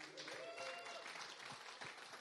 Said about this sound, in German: Genau, können wir mal eine Runde klatschen hier.